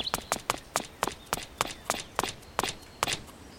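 Footsteps of someone walking along a wall on a bunker tour land in a steady, regular series of many crisp, moderately loud steps, alone with no talk.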